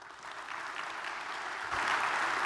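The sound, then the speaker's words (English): A church audience applauds to welcome a guest speaker. Many hands clap in a soft, even wash that swells slightly louder during the last second. “So let's put our hands together and let's give a warm First Church welcome to Mike.”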